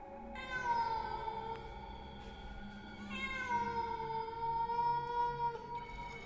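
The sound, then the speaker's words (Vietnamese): A black cat yowling eerily, two long drawn-out wailing calls, high and tonal with a wavering pitch, each held for a few seconds, loud and alone without talk. “Một con mèo đen xì xì xuất hiện, đôi mắt xanh lè lè. Ở trên cành cây hòe, nó nhảy bổ xuống bàn lễ, kêu lên những tiếng ghê rợn.”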